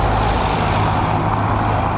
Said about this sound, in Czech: Na Havlíčkově náměstí v Havlíčkově Brodě je v těchto dnech provoz jako na silnici vyšších tříd.